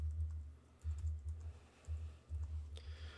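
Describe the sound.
Bursts of computer keyboard typing while someone writes markup, with soft clicks and low thumps between short pauses.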